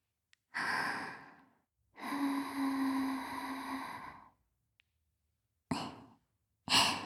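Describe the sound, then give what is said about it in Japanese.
Soft breath is blown gently into a sensitive ear as four airy exhalations: a sighing puff, a long drawn-out breath with a faint voiced hum, then two short quick puffs, all close and quiet. “敏感なお耳に吐息を吹きかけて”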